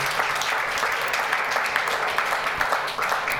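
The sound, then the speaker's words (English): Audience applause welcoming an author at a book talk, a thick, even roar of many hands clapping that holds steady and fairly loud throughout. “So delighted to welcome you. Let's have a round of applause”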